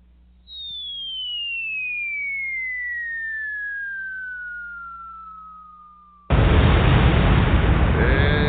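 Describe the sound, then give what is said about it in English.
A falling-bomb whistle sound effect: a long, clear tone gliding steadily downward in pitch for about six seconds, then a sudden loud explosion blast that stays roaring to the end. “Exactly. A falling bomb at that.”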